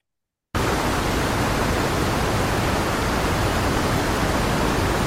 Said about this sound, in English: That was the sound of a waterfall.